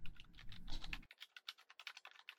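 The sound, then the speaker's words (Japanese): Fast typing on a computer keyboard produces many rapid, light key clicks in an uneven stream. A low rumble sits under the first second. “すっごい勢いでタイピングしてるし。集中してるな。”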